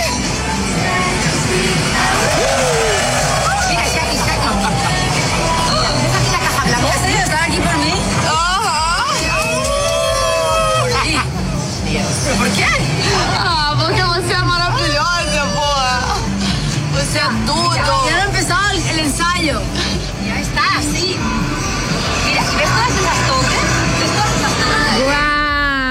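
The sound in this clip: An excited crowd gathers below Shakira's hotel window in Copacabana, making a dense, continuous roar of shouting and cheering voices with yells rising above the din throughout.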